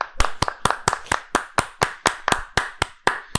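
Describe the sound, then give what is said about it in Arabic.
Hand clapping at a steady, even pace: fourteen sharp, loud claps in a row, each with a short fading tail and no voices in between. “صفق ليه طيب؟ صفق”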